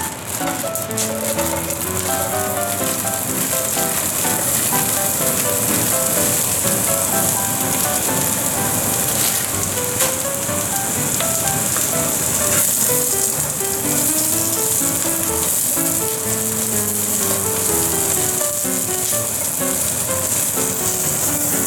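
A cabbage mix sizzles steadily in a frying pan for chocolate yakisoba, a continuous bright crackling hiss that holds level throughout, with music playing over it.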